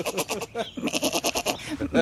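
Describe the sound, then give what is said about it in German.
A young goat bleats in short, quivering, nasal cries, several in quick succession, fairly faint. “Das hat eine lustige Sprache, so eine kleine Ziege. Mhm. So klein und schon so meckerig.”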